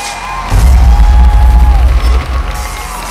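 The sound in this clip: Crowd cheering and applause swell into a loud, booming roar with whoops after a quieter start, holding strongly for a couple of seconds before easing slightly near the end.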